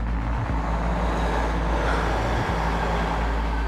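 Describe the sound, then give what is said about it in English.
Low, steady engine and road rumble from a car pulling away as it drives out of Charlottetown. The loud, continuous droning hum carries no distinct separate events. “I'm letting my foot off the brake. I'm leaving Charlottetown.”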